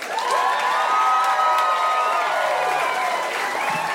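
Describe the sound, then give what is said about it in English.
Enthusiastic audience applause and cheering greet a comedian taking the stage at a Denver stand-up show being taped: dense, steady clapping with high whoops and shouts running continuously throughout. “Let's give a big hand to Andrew Santino.”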